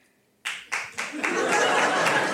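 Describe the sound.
Audience applause from a live talk-show crowd, opening after a moment of silence with a few separate claps before swelling into steady, dense clapping that holds to the end.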